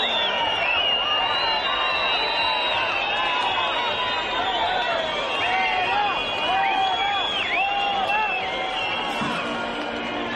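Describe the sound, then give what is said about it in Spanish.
Crowd whistling at Spanish interior minister Marlaska at the National Police School in Ávila: many shrill, overlapping whistles ring steadily over a dense crowd hubbub throughout. “Bueno, los organizadores estuvieron hábiles subiendo pronto el himno de España para que nos escucharan los pitos. Fue la respuesta, aquí se la llevó Marlaska”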